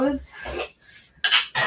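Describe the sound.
A container of coconut oil is worked open with clinks, knocks and scraping in a few short bursts, the loudest two coming at the end.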